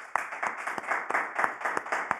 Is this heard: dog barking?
no